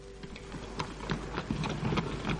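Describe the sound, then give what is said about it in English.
Horses draw a stagecoach from Hartford to Litchfield through a little Connecticut village. Faint, irregular clip-clop knocks of hooves sound over a low, steady rumble. “The stagecoach from Hartford to Litchfield passed through the little Connecticut village on its way west”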